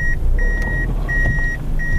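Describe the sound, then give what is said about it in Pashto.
A black Fielder car is manoeuvred on a road to park, with a few steady electronic beeps repeating at a fixed pitch over a low, continuous engine rumble. “دا د سړک پر سر خپل تور رنگ فیلډر موټر شاو مخته کوي تر څو قانوني ودروي.”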